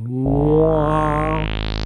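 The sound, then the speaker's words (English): The opening of the Xbox console boot sound: a low-pitched sawtooth synth tone fades in, then its filter sweeps steadily open so the buzzy tone grows brighter and sharper, ending in a smooth, rising hiss. “what that sound is literally a low-pitched sawtooth wave where I could programmatically start the filter cutoff very, very low, you know, like 20 hertz”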